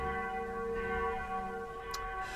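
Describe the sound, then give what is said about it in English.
A mission bell rings with a steady sustained tone made of several humming partials. It is fairly quiet and shows no distinct separate strikes. “And that's the sound of the mission bell, meaning it's our mission segment of the week.”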